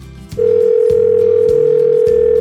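A telephone dial tone before a call: a brief low hum, then a loud, steady, unbroken single-pitched tone that holds to the end.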